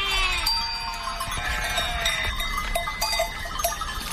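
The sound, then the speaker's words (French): A lamb bleats at night amid the tinkling of a sheep bell, with several short bleats and light metallic chimes scattered over a steady, noisy background. “La nuit, calme et belle, résonne par moments du tintement d'une sonnaille ou du bêlement d'un agneau, inquiet de savoir si sa mère est toujours là.”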